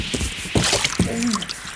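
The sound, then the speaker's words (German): Wet splash and squelch of someone landing hard in a muddy water puddle outdoors after a windy, too-fast descent. Two short, sharp impacts stand out, with fainter sloshing between and after them. “Zumindest in einen Wasserglunken rein bin ich gefallen.”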